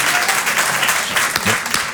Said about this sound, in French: Moi aussi, je m'applaudis